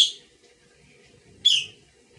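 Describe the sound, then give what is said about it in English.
Two short, high, bright chirps from a pet bird, about one and a half seconds apart, with faint low background noise in between. “I must cover my bird.”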